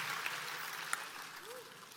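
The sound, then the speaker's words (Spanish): A church audience applauds in a dense, steady patter of many hands, fairly faint and even from start to finish. “Alguien reciba esa palabra y denle un aplauso al Señor.”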